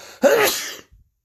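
A single loud, sharp sneeze bursts out alone, with a sudden explosive onset and a breathy tail lasting about half a second before quiet returns.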